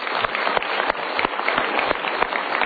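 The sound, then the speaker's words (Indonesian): Audience applause at a motivational talk event: dense, steady clapping from many hands, loud and unbroken from start to finish. “Kita berikan tepuk tangan lagi.”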